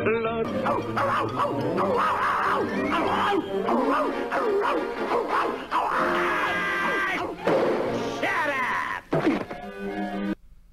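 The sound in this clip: A dog yelping, barking and whimpering frantically in a continuous, loud, high-pitched outburst that fades away near the end.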